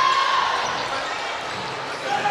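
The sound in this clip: Basketball dribbled on the court during a game, its bounces mixed into dense background noise under a commentator's voice.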